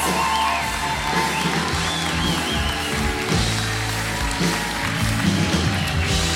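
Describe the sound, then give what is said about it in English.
A church audience in Liverpool cheers, whoops and yells in a loud, rowdy welcome for a pastor, a dense and continuous roar of many voices that holds steady for the whole stretch with no pause. “So, Liverpool One Church, can we make a huge rowdy welcome for Pastor Peter Haas?”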